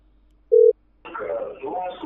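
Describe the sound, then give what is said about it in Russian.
A single short electronic telephone tone sounds once, steady in pitch, as a phone is dialed to call someone back. A brief pause follows, then a voice begins talking. “Так, я его сейчас еще раз наберу.”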